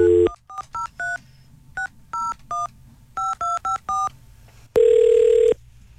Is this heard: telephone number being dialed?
yes